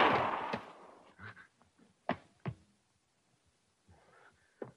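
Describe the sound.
A single pistol gunshot in a Western-style scene: a sharp, broad blast that fades out over about a second. Scattered faint voices and short sounds follow at a low level.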